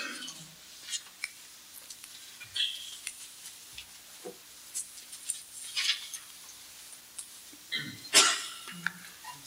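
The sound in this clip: A person sneezes once during a religious lesson on Islamic jurisprudence: a brief, sharp burst near the end, amid faint scattered rustles and small noises in a quiet background.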